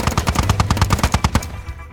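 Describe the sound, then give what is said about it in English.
A chain gun fires a loud, rapid stream of evenly spaced shots in one sustained burst that cuts off abruptly near the end. “The chain gun is tearing through us.”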